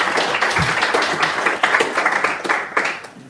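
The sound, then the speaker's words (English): Audience applause welcomes a speaker at an LSE public talk: dense, steady clapping from a crowd that holds evenly and then tapers off at the end, with no voices over it. “So with that, please join me in giving Amy a big LSE welcome.”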